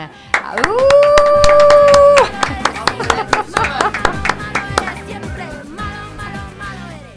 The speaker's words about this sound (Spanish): Un aplauso cerrado.